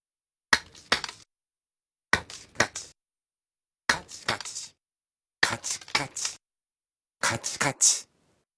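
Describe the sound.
Hard clicking, the sound Japanese renders as kachi kachi, in five short bursts of a few sharp, dry clicks each, separated by clear silences.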